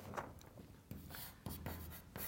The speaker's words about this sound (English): but let's continue and write down also the full solution.